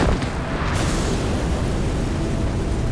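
An inn explodes, with the blast blamed on faulty gunpowder barrels. A sharp opening burst swells into a loud, sustained roaring rumble that fills the whole clip.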